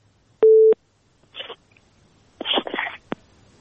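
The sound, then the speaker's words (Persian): A telephone busy signal from a call that failed to connect: one short, steady, low beep, followed by a few brief, faint, noisy bursts. “متاسفانه تماس ما درست برقرار نشد”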